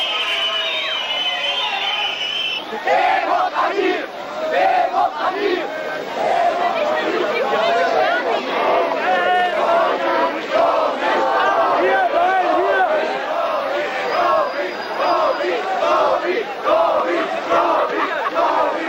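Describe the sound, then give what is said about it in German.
A crowd of demonstrators chants together while marching toward the Palast der Republik, loud rhythmic group shouting rising and falling in repeated waves over a background of crowd murmur. “Wir bleiben hier, rufen sie, aber das scheint dem Staat auch nicht recht zu sein.”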